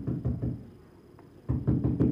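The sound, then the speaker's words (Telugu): Slow knocking on a door late at night: faint, dull low thuds come in two small groups of a few knocks each, separated by a quiet pause of about a second. “మళ్ళీ చూడమ్మా, ఎవరు నెమ్మదిగా తలుపు తడుతున్నారు.”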